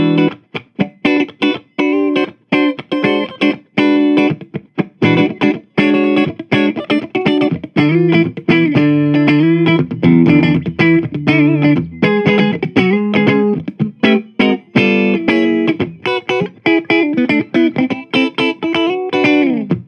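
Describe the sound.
A 2020 Fender American Professional II Jazzmaster electric guitar with both pickups on plays bright, trebly, funky chords in choppy rhythmic stabs. The playing stays loud and steady for the whole passage, with no talking.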